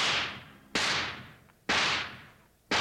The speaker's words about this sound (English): Looks like you did it, Jingles. Yeah! How about that? Every shot in the bullseye.